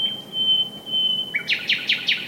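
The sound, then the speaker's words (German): A nightingale singing: a long, steady, high-pitched whistled note, then a quick run of sharp repeated chirping notes, clear against a quiet background. “Die App checkt erstmal, ob da überhaupt eine Nachtigall singt.”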